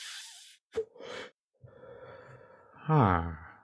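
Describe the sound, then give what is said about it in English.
A deep puff drawn from a joint: a short click, then a breathy inhalation, a quieter airy stretch, and a loud voiced breath at the end. “I'm going to take a deep puff.”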